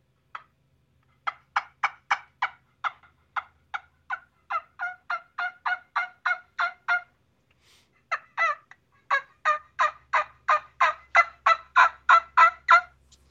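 Turkey yelps blown on a wing bone call with a slightly flared end: two runs of many short, rhythmic, raspy yelping notes separated by a brief pause, fairly loud and with no talk over them.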